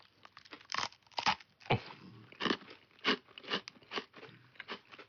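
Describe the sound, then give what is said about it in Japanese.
Crisp crunching as someone bites into and chews a simple traditional Japanese sweet: many brittle crunches in an irregular rhythm, loud and close, with no talk over them. “あ、意外にこれもサクサクっとした食感で、もっとバキッとくるのかと思って、ちょっとドキドキしましたけども。うん、素朴なお菓子ですけども”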